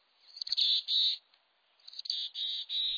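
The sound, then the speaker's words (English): A mountain chickadee gives its husky call among Rocky Mountain conifers. Two series of high, hoarse notes are separated by a pause, each with a few short notes leading into longer drawn-out ones. “Hike among conifers in the Rockies, and you'll be greeted by the husky voice of a mountain chickadee.”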